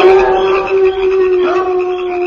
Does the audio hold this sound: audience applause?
no